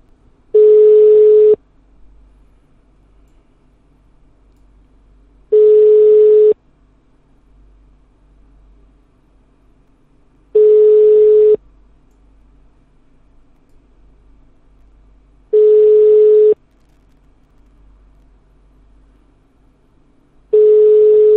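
Telephone ringback tone on a call that goes unanswered: five long, even, steady beeps, each about a second, separated by roughly four-second silences with faint hiss.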